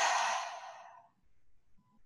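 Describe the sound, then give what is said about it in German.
A deep breath exhaled through the mouth during a guided meditation, one soft, breathy rush that fades away over about a second, followed by near silence. “Und dann atme hier nochmal tief durch deine Nase ein und tief durch den Mund aus.”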